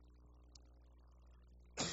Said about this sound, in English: I can't get rid of this cough.